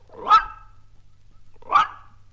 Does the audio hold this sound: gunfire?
no